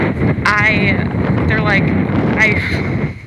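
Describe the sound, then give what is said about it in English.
Wind buffets a microphone outdoors, a steady low roar and rumble under a talking voice. “Okay, now I know the quality sounds worse, but at least the wind isn't like as bad as it was. So, oh my God, why is it so windy?”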